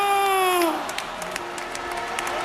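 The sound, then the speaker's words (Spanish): Crowd applause and cheering ring out as an ovation for a Spanish football player walking out with the trophy at a World Cup title celebration, a dense, steady wash of clapping that carries on to the end. “También gran ovación a Baena.”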